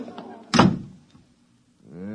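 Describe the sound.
A door slams shut with one sharp, heavy thud that quickly fades into near silence, after which a voice begins speaking.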